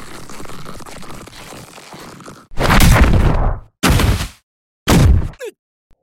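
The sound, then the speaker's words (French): Bagheera strikes Kaa, who bumps his head. Three loud cartoon bangs and thwacks follow a quieter stretch of background sound, each cut off sharply, and the last is followed by a brief falling squeak. “Se fait frapper par Bagheera et se cogne la tête.”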